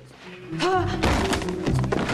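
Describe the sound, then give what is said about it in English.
A mannequin's head is bashed on a table, giving a few heavy, dull thunks, mixed with giggling voices. “They giggle hysterically as they proceed to bash the mannequin's head on a table and then struggle to lift it onto another table.”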